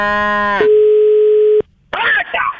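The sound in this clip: A telephone ringing tone plays as a call is placed: a short buzzy tone, then a single steady mid-pitched tone that lasts about a second. After a brief silence, a voice begins speaking.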